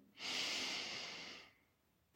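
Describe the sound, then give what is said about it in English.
A single deep, airy breath in is drawn slowly and evenly during a guided body-awareness relaxation exercise. It is fairly quiet and lasts over a second before fading into near silence, followed by a tiny click at the end. “Take a deep breath in,”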